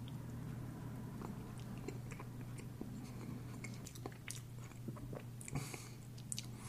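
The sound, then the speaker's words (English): Biting and chewing into a cinnamon biscuit bun with icing and a dry, flaky texture, making many soft, crunchy clicks and moist chewing sounds. The sounds are faint and irregular, and no one speaks. “I'm really not tasting the biscuit at all. Let me go in for another bite here.”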